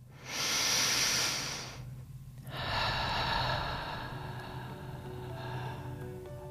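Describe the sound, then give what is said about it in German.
A long, deep, deliberate breath taken during a guided relaxation: a strong, airy inhale of over a second, a brief pause, then a longer, softer hissing exhale that trails off, with no talk. “Nimm noch einen langen und tiefen Atemzug ganz bewusst.”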